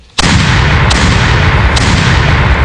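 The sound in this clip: Three gunshot sound effects: a sharp, loud first shot, then two weaker reports spaced about a second apart, all over a sustained roaring rumble.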